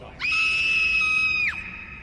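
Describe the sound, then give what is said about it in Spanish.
A woman's high, piercing scream holds one steady pitch for over a second, loud and alone, then drops off sharply at the end. “Espera, ella chilla al final porque le ha hecho algo.”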